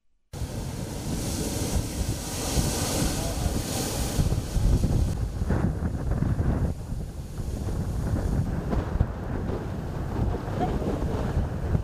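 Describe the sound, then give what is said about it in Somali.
Waves washing onto a beach in Mogadishu, Somalia, where the sea reaches shoreline graves. A steady surf roar runs throughout, with wind buffeting the microphone and no voices. “halkan waa xeebta school blueziya ee magaalada Muqdisho qayb ka mid ah waa qabuuro dadka lagu aaso haddii waxaad moodaa ama aragnaa in qabuurihii ay biyo qaadayaan”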